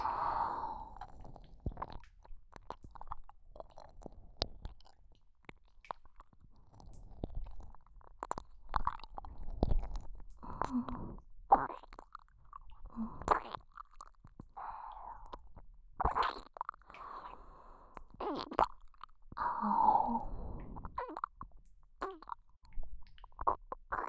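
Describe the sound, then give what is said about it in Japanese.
Close, wet ASMR mouth sounds from nibbling on an ear. Soft squishy smacks and chewing-like clicks come in many irregular bursts, with faint breathing in between and no speech. “君を気持ちよくするためなんだから、耳をハムハムしても君なら許してくれるよね。”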